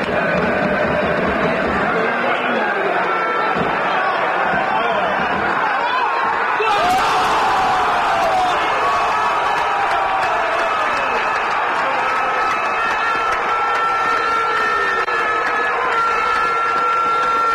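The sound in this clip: A stadium crowd roars for a goal by Marano at a Spanish third-division match in La Mancha: dense, continuous crowd noise that swells sharply partway through and stays loud, with a voice speaking over it.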